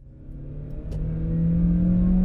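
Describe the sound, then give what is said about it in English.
Engine of a manual-transmission car in Los Angeles revving: a steady, loud, low roar that steps up in pitch partway through and then holds even and sustained. “This is the roar of an engine at the mercy of its driver, waiting for a clutching left foot to let it rest and idle.”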